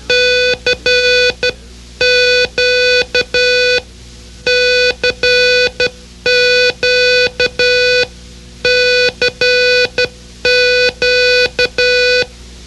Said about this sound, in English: which is sent when you wish to communicate with anyone who might be listening to your signal on an approved radio band. The sound of CQ is...